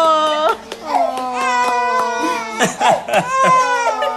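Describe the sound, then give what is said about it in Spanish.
A baby cries loudly in strained, high-pitched wails that rise and break, coming in repeated bursts with brief catches of breath between them. “¿No querés oír llorar? Ahí está. Sí, llora. ¡Ay, bebé!”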